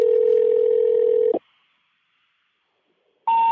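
Telephone tones while dialling an international number for the US Naval Observatory: a loud, steady electronic tone holds for over a second, cuts off into silence, then a second tone starts.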